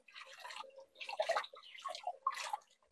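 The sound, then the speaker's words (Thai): Water sloshing and dripping as an item bound with rubber bands and dyed in a spiral pattern is rinsed until the water runs clear; about four faint, splashy bursts separated by short pauses. “แล้วก็ล้างเขาจนกว่าน้ำเขาจะใสนะคะ”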